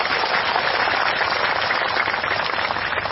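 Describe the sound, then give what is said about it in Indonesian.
An audience applauds at a religious talk, a dense, steady wash of clapping that holds evenly for about three seconds with no voices over it. “Tepuk tangan.”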